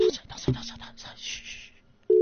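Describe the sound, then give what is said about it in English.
A phone ringtone sounds while a voice call is being placed, heard as short bursts of a low steady electronic tone. The tone breaks off and returns, with people talking in the gaps between. “Ek dink dit is 'n ringtone.”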